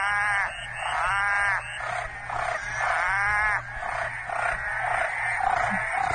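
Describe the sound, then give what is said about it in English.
Two mating frogs croak loudly and continuously. Their rapid, pulsing trills repeat over and over with barely a break, above a low background hum. “In this video that I have, there's two frogs banging. Yeah. Those are the main sounds you hear, the guy and the girl repeating each other, and one sad frog watching.”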